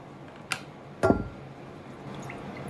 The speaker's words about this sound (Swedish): Oj, det åker ner kräftstjärtar.